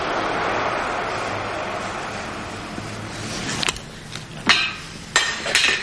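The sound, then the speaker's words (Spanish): A tin can thrown against a car strikes with a few sharp metallic clanks in the final two seconds, following a steady low rumble that fades gradually beforehand. “mira con rabia y lanza otra lata al coche.”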